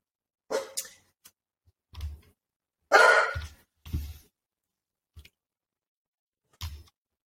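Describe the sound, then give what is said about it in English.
A pet dog gives several short, muffled woofs spaced irregularly across the stretch, each a soft, low burst standing alone against near silence. “Oh, that is my dog, Milo.”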